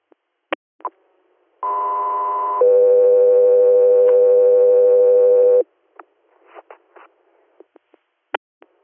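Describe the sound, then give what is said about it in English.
Radio dispatch alert tones for an air medical crew: a loud, steady high tone for about a second, then a lower steady tone held for about three seconds, with brief clicks before and after. “Crosby Air, stand by for tones.”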